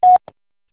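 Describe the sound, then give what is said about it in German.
A single short, steady electronic beep from a German mobile voicemail box signalling the start of recording, followed by a faint, brief click, then silence. “Bitte sprechen Sie Ihre Nachricht nach dem Tonsignal.”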